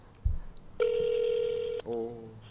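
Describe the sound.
A telephone call is connected: a soft thump, then a steady electronic tone lasting about a second, followed by a shorter warbling ring tone.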